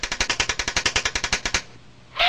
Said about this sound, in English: we're going to have to try the silent machine gun.